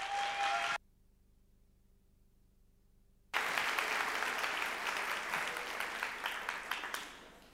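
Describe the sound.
Applause from an audience welcoming a speaker, a short burst of clapping, then silence, then a longer, full round of steady claps that slowly thins toward the end.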